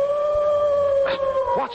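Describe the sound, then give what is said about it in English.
Hound howling on the moor, a long, sustained wail held at one steady pitch, with a voice briefly speaking over it near the end. “Watson. That was the cry of a hound. They say it's the cry of the Hound of the Baskervilles.”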